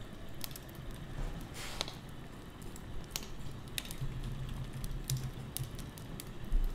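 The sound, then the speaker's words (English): Typing on a computer keyboard: scattered, irregular key clicks over a steady low hum, with no voices. “I just typed in Thanksgiving.”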